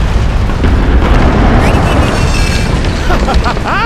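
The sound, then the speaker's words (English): Bombs planted as traps exploding: a loud, continuous wall of rumbling blasts and crackling bursts that never lets up for the whole stretch. “Why are there so many bombs?”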